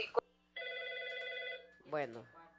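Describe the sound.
A telephone rings on a call-in line. One sustained electronic ring lasts about a second, followed by a short voice.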